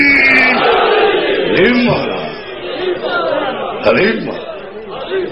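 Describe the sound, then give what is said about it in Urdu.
A religious gathering shouts the Nara-e-Haidari slogan in a loud, massed roar of voices. The chant surges in waves and peaks sharply toward the end. “پوری تاریخی طاقت سے پورے انداز کے ساتھ اپنی ساری قوتوں کو جمع کر کے نعرہ حیداری”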